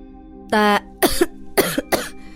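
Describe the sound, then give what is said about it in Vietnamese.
Dry coughs from a young man in black crawling out from beneath earth and rubble: a few short, rough bursts spaced apart and fairly loud, preceded by a brief steady tonal sound. “một thanh niên mặc đồ đen theo đó bò ra, ho khan vài tiếng.”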